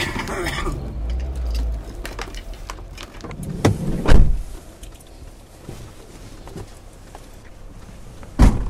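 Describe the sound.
A garage door being opened at a villa, heard as mechanical rattling and clicking with a few sharper knocks and a louder thump near the end, over a steady low background rumble.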